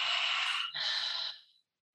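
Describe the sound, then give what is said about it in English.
Airy breathing during a breathing exercise: a long inhale drawn through the nose, a brief break, then an exhale released through an open mouth that fades out. No voices are heard. “So inhale through our nose. You're going to open your mouth”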